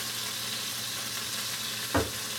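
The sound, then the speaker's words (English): Hamburger meat fries in a pan with a steady, even sizzle throughout, broken near the end by one brief, louder burst like a stir or scrape. “As the meat is cooking, you want to add 1 pinch of salt for flavor.”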